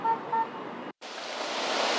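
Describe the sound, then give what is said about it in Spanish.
Car horns honk amid a street protest crowd in Miami. Two short, faint horn toots sound over a steady wash of noise. After a brief cut, a broad, hissing crowd-like roar continues. “se siente a través de estos bocinazos y también de los vítores que están a mis espaldas.”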